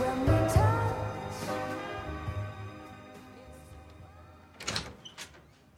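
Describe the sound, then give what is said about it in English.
A door is opened cautiously as someone arrives home late at night. Near the end, a brief clatter of handle and latch follows a stretch of quieter tonal sound. “cautiously opens the door. She walks quietly in.”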